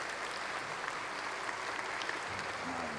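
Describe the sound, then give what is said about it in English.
Applause from a church audience welcoming two people onto the stage: a steady, dense wash of clapping that holds an even level throughout. “Would you give Hannah and Parker a warm welcome up here?”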